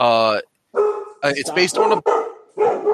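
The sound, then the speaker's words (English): Dogs barking in a room: a loud, drawn-out, tonal bark opens, then a person talks. “Dogs, calm down over there.”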